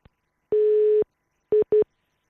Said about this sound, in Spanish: Uy, parece que, se nos ha ido la llamada o que tenemos algún pequeño problema, porque la espera a veces eh, o ha tocado ahí un botoncito y tiene nuestra llamada en espera.